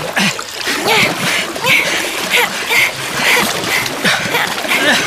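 Paddles splash through water in a paddling race, a brisk, loud series of many rhythmic strokes with hissing spray between them.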